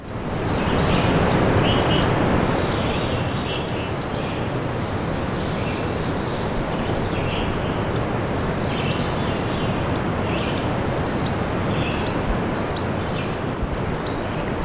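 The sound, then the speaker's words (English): Bobolink song: bright, jangly high chirps and twitters come and go above a loud, steady rushing background noise, with a burst of denser calls near the end. “Bobolink.”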